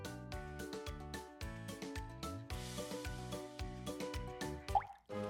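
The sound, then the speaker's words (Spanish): Water drops dripping into several containers of different sizes make many pitched plinks and plops in an irregular, steady pattern. The sound is moderately loud, with no voices. “Ese es el sonido de una gota cayendo en varios envases que te regaló tu tía en Navidad.”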